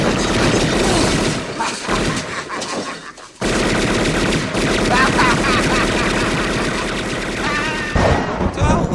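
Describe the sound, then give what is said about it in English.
Gunfire rattles in rapid, dense bursts, loud and crackling, with a short lull near the middle before the volley resumes and carries on to the end. “Stop shooting. What a bad aim that guy has.”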